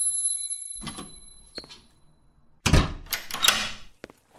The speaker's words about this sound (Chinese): 你锁门干嘛？